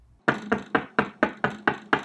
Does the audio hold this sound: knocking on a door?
yes